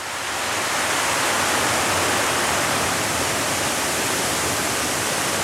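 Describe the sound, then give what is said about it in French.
Flowing river water near a stream swollen by floods in a protected valley, a steady, dense rushing hiss that stays loud and unbroken throughout, with no voices. “Vous entendez donc de l'eau couler. On a nos crues de Barle qui ne sont pas loin.”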